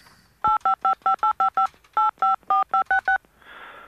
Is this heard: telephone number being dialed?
yes